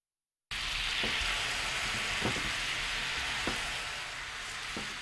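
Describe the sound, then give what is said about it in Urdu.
Soy sauce, sugar and water sizzling in a frying pan over medium heat as the sauce thickens, a steady, even hiss after a brief silence, with a few faint ticks. “Frying pan کو دھو کر اس میں soya sauce, چینی اور پانی ڈال کر ملائیے۔ اب فرائنگ پین کو درمیانی آنچ پر رکھ کر سوس کو گاڑھا کر لیجیے۔”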